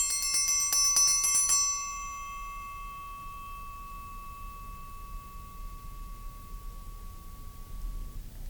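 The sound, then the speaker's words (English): A metal triangle is struck several times in quick succession, each hit a bright tinkling ding. The gentle, high ringing then lingers and slowly fades for several seconds. “Now, listen to the gentle tinkling sound that the triangle makes when someone hits it.”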